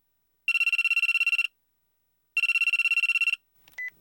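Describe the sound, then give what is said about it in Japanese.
A telephone rings with an incoming call: two bursts of rapid, high-pitched electronic trilling, each about a second long and separated by a pause, then a faint brief blip. “一天下午，小野的朋友清水给小野打来电话。”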